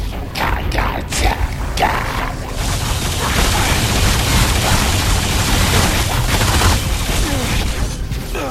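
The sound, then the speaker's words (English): An elevator moving in a video game, a loud, steady mechanical rumble with rattling texture, a few sharp clanks standing out near the beginning. “Detecting elevator movement.”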